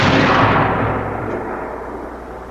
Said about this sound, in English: let's hear Carl Higdon reliving his alien encounter from the second he fired the bullet. Fire.